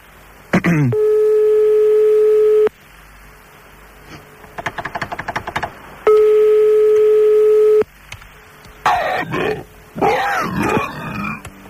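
A telephone ringback tone plays while the caller waits for pickup: two long, buzzy, steady rings separated by a pause, with bursts of rapid clicking between them and noisy rustling bursts afterward.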